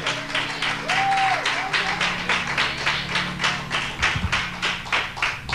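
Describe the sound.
A church audience claps to welcome a speaker. The clapping is rhythmic, with brisk, evenly spaced strikes in a steady beat over low sustained tones.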